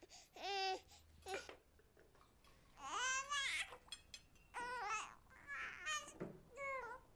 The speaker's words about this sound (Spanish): La bebé acaba de despertar.